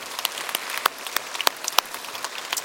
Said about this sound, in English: Let's give them a big hand out there.